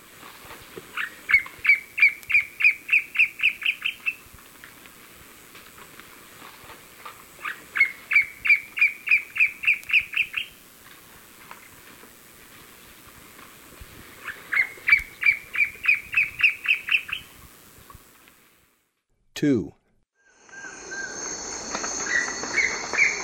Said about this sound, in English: Black Ant Bird